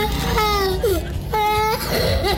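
Children wail on cue during a ticket giveaway. Two drawn-out cries stand out over a busy wash of crowd noise and chatter.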